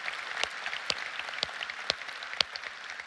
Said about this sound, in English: Rockwall, would you put your hands together and welcome your church family?